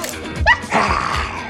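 A pet dog vocalizes as if growling like a wolf: a short, high, rising whine-like cry, followed by a rougher, breathy noisy stretch. Moderately loud, with no talk over it.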